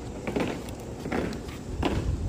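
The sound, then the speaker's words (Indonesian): Marching footsteps of a flag-raising troop drilling on a field at the Indonesian ambassador's residence in Washington, D.C. A few heavy, evenly spaced stamps land over a steady wash of outdoor noise. “Panas terik mengiringi derap langkah pasukan pengibar bendera atau Paskibra di lapangan Wisma Indonesia, rumah dinas Duta Besar RI di Washington, D.C.”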